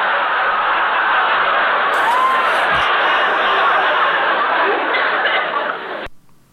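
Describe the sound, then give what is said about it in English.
Studio audience laughter effect played from a soundboard: a dense, sustained wash of crowd laughter and chuckling that holds steady, then cuts off abruptly near the end. “Sean has a soundboard and it's so exciting. Soundboard, that's so fantastic. Oh, it's that's great. Yeah, I love it. Why don't you love it? I don't know. I just said it. It sounds like the studio audience loves it.”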